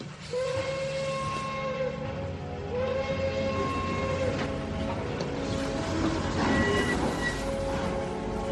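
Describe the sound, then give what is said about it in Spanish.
A train pulls away, its whistle sounding in a few long, steady tonal blasts over a continuous loud rumble and hiss of the moving cars, with no voices. “Pues que salga el tren. ¡Adelante! ¡Que salga el tren!”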